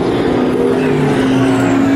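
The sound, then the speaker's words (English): Valkyrie V12 race car in a top-class endurance race, its engine a loud, steady, high-pitched drone with sustained tones that holds throughout. “And listen. Yeah. There it is, the Valkyrie. Ah, love that sound.”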